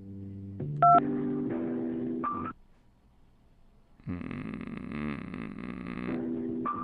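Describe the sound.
A single telephone keypad tone, pressed to choose a menu option on an automated phone line, rings out as a short, loud beep over a steady, droning hold sound.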